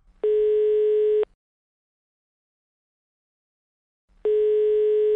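Telephone ringback tone heard while a call is placed. Two long, steady buzzing tone bursts with a mid pitch are separated by about three seconds of silence, and the second burst runs to the end.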